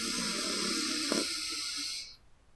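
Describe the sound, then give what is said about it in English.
A deep breath is drawn in through the nose as a steady, breathy hiss that lasts about two seconds and then stops abruptly. “taking a deep breath together, in through the nose and out through the mouth. Breathe in”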